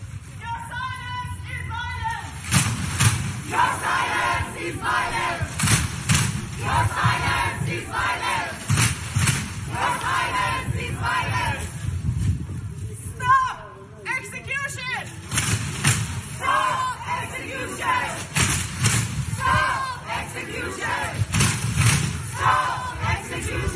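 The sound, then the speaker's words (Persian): A crowd of activists in Norway makes a rhythmic group sound on a leader's cue, with many loud, evenly spaced beats cutting through the steady rumble of voices from start to finish. “حرکت خیلی جالبی هست، میشود در ایران هم تقلید کرد، ساخت برای ایجاد صدا، منتها لیدر نیاز داره که مثلا بگه الان بزنید، الان متوقف کنید، الان بزنید، الان متوقف کنید.”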